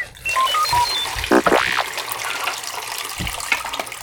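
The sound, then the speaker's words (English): Photographic fixer solution is poured out while developing film, giving a splashing, gurgling liquid rush that is loudest early on and then thins to a softer, uneven trickle. “Nope, dump out the fixer. Dump out the fixer now.”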